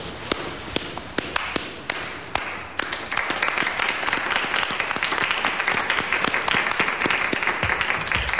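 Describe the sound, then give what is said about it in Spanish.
Applause from people rising to their feet in a period drama: a few scattered separate claps at first, then dense, steady clapping from about three seconds onward, with no talk over it. “El duque se levanta y aplaude también.”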